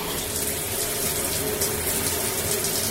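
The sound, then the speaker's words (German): A shower runs with warm water, a steady, even hiss of spray that stays constant throughout, with no voices. “warmes Wasser, viel warmes Wasser. Die Dusche ist für mich so ein bisschen wie die Zauberkugel damals bei der Mini-Playback-Show.”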